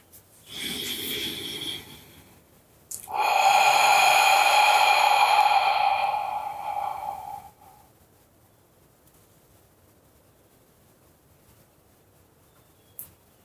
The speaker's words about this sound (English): feel your breath begin to move your body in through the nose and out through the mouth